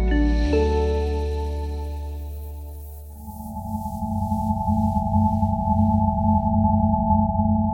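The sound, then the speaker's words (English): A spacey electronic hum sonifies the emission spectrum of hydrogen: stacked steady tones form a sustained chord that shifts early on, then settles into a lower, faintly pulsing drone with a clear upper tone that holds, loud and unbroken. “You've just heard what noise, according to one scientist, hydrogen would make if it emitted sound instead of light waves.”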